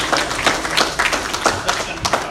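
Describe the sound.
An audience applauds a guest from the Y with dense, steady clapping that stays loud and even throughout, with individual sharp claps standing out in the wash.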